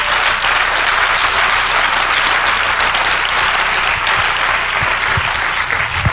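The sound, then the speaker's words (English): An audience applauds two presentations with loud, dense clapping that stays steady and unbroken throughout, with no speech over it. “Let's give them both a hand right now. This is wonderful.”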